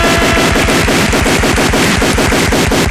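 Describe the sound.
A voice imitates rapid gunfire: a loud, unbroken burst of fast, evenly spaced popping blasts like a machine gun, sustained for the whole clip with no talk.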